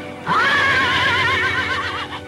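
A horse neighs near a muddy, overgrown shore, one long whinny with a strongly wavering, quavering pitch. It is loud and alone, holding for nearly two seconds before tailing off.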